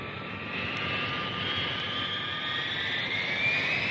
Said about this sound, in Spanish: emprendieron un rápido viaje a bordo de un potente avión hacia la China misteriosa.